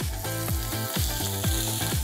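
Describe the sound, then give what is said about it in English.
Food sizzles loudly and steadily as it cooks over low fire on a grill, a constant bright crackling hiss with a regular pulsing beat running underneath. “So we have to give the crust and then let it cook nicely through for a little bit of time, low fire.”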